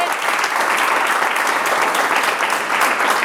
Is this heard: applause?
yes